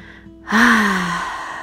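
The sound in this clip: One deep breath is drawn in through the nose, a sudden loud breathy intake that slowly tapers off.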